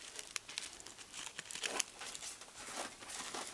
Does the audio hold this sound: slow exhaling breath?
no